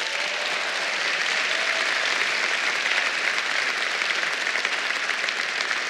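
Audience applause welcomes Secretary Betsy DeVos at a Cornerstone chapel gathering, a dense, steady wash of many hands clapping that holds at an even level for the whole clip.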